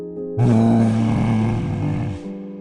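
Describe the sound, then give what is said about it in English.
A voice imitates the loud, deep roar of a frost elemental in a fantasy role-playing game: one sustained, growling blast of about two seconds that holds steady and then cuts off. “You hear this loud roar”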